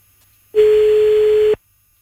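Single steady telephone tone while calling someone: one clean mid-pitched beep lasting about a second, starting and stopping abruptly, with near silence before and after.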